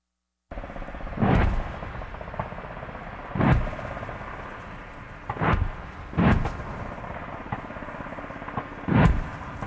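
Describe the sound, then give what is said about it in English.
Gunfire and artillery from a military live-fire exercise near Townsville, Queensland, Australia: five heavy booming blasts with long rumbling tails, spaced irregularly over a constant low background rumble. “That's the sound of a live fire exercise taking place near Townsville in Queensland, Australia.”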